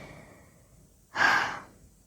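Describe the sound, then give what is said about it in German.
A single audible breath taken in a pause between spoken sentences: one soft, breathy whoosh that swells suddenly and fades over about half a second against an otherwise quiet background, with no talk. “Deshalb sind immer wieder diese Aussetzer, wo ich dann nichts sage und einfach nur atme”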